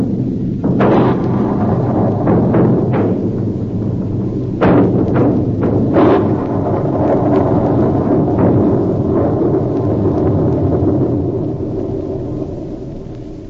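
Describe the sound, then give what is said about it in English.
Hand grenade explosions destroy an antique shop, with a few sharp blasts bursting through a heavy, sustained rumble that slowly dies away toward the end. “Count Padova attempted to throw a hand grenade. I was forced to shoot. The shop was destroyed in the explosions that followed.”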